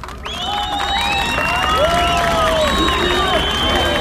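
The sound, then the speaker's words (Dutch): Supporters cheer Turkish President Erdogan at a polling station on election day, loud continuous crowd cheering with many overlapping shouted voices. “President Erdogan werd met gejuich ontvangen door zijn aanhangers bij het stembureau waar Erdogan vanmorgen zelf gestemd heeft.”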